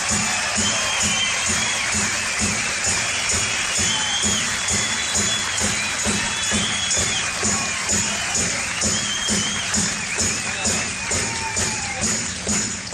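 A live show audience applauds the band members, with dense, continuous clapping and some cheering filling the whole stretch at a steady, loud level.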